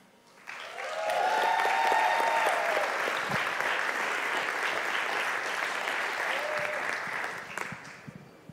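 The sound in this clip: An audience applauding to welcome a speaker: clapping swells quickly to a loud, dense roar and holds steadily for several seconds before tapering off.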